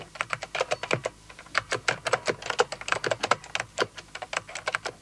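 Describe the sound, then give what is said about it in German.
Typing on a computer keyboard at a computer workstation: many crisp, clicking keystrokes in quick, uneven bursts with brief gaps, moderately loud and heard alone. “Bei 220 bis 250 Anschlägen pro Minute spricht man von langsamem Schreiben.”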